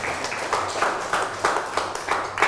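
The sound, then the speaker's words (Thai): Classroom applause for a student, a steady run of fairly regular claps at moderate volume. “ได้ปรบมือให้เพื่อนหน่อย”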